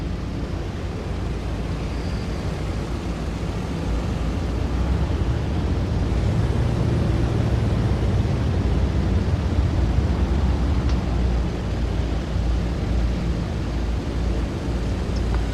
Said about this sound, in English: So we're straight on the runway. We are taking off from runway 17.